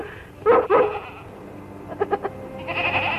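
Lassie the dog gives two short, high, tonal barks close together, followed after a pause by a few softer yips over a quiet background.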